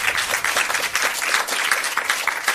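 Audience applause welcoming a band, dense, steady clapping that holds at an even level from start to finish.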